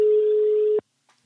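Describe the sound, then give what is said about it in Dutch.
A telephone line tone on a call: one steady, loud, mid-pitched beep lasting under a second, then silence. “Even bellen, even bellen met een echte voetbalkenner.”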